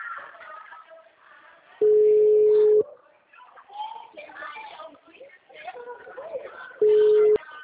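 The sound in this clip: A phone call rings unanswered, its steady ringback tone sounding as two loud, flat beeps about five seconds apart while a person talks throughout.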